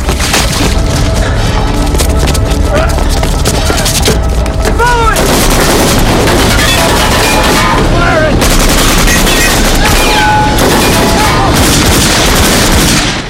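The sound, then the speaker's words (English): Loud, relentless gunfire in a shootout between a man and soldiers at a crane: rapid bursts and booming shots packed into a continuous barrage, with splintering impacts and brief high whines scattered throughout. “Axel returns fire, then continues climbing. A soldier climbs after him. Axel blasts the soldier back down the ladder, but others are behind him.”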